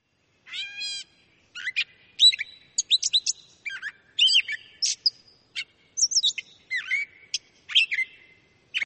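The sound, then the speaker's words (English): A catbird sings a series of short, varied chirps and whistled phrases, interspersed with scratchy, mewing notes like a cat's meow. The clear, high-pitched calls come in quick bursts separated by brief pauses. “The catbird mimics other species, but can be recognized by the scratchy meow interspersed in its song.”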